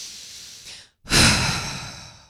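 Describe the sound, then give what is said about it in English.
A deep breath drawn in, loud and airy, following a softer breath and a brief moment of silence. “take a breath in with me, will you?”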